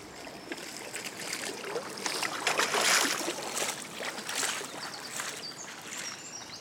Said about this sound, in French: j'entends la glisse du bateau, l'étrave, la pointe avant du bateau qui fend l'eau